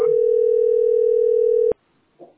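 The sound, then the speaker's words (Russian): A telephone line tone plays on a call to a utility billing center, a steady single-pitched tone lasting under two seconds before a sharp click cuts it off, followed by a faint brief noise. “Звоню в это расчетный центр СПБ.”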